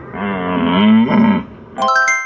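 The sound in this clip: A human voice imitates a red deer stag's roar with two deep, drawn-out, groaning bellows, loud and alone.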